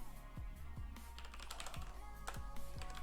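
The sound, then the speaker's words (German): Typing on a computer keyboard: a quiet, steady stream of many light key clicks with occasional duller thumps, with no talking. “Ich tippe das jetzt einfach mal kurz so ab”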